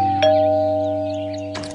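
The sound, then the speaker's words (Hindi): A doorbell rings with a loud two-tone ding-dong, two chimes struck more than a second apart over a steady low tone. “Neha के दरवाजे की घंटी बजी”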